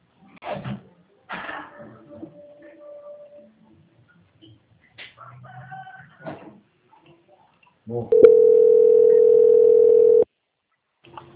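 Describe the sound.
A steady telephone line tone plays while a call to a bank is transferred to quality control. It holds one even pitch for about two seconds after some brief, quiet sounds and stops abruptly.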